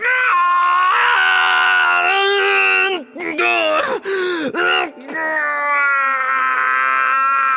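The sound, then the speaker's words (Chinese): A man's voice screams in long, strained, high-pitched cries, broken by a few brief gasping catches around the middle before the loud scream resumes and holds to the end. “他尖叫起来”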